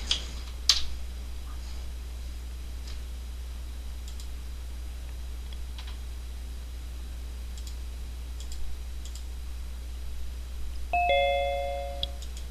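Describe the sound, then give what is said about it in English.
A doorbell sounds a clear two-note ding-dong chime near the end, preceded by a few faint clicks over a low, steady hum. “There's a ding dong.”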